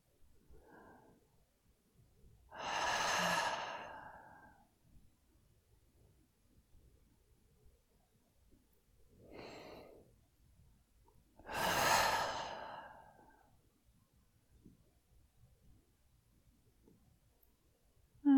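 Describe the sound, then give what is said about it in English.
Slow, deep breaths, a few long airy swells of breath separated by quiet pauses, soft and unaccompanied by talk. “We can start by taking two deep breaths.”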